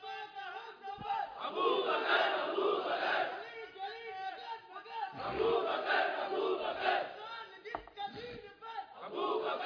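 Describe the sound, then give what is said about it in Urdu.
A crowd loudly chanting a religious slogan in praise of Hazrat Siddiq Akbar, many voices shouting together in unison. The chant comes in a few surging waves with brief dips between them. “ذرا لگاؤ زور سے حضرت سیدنا صدیق اکبر کا نعرہ”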